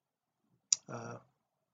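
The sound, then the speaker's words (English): A single sharp computer mouse click, a crisp high tick, followed at once by a brief low voiced sound. “I'm just going to click continue with template for now.”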